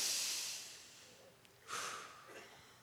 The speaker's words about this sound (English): So I just want everybody to take a deep breath. In fact, let's just do that now. Just in through the nose, out through the mouth.